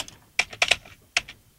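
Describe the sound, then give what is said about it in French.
Computer mouse clicks, sharp and quiet, coming as a few isolated taps with short irregular gaps, heard alone without voices. “Pour l'instant, alors attends, bouge pas, je clique.”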